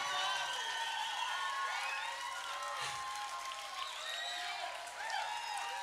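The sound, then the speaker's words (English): Concert crowd cheering and clapping, with whoops and shouts rising and falling above a continuous roar of applause that holds steady throughout. “If you keep cheering, we might even come back again and do the whole charade again.”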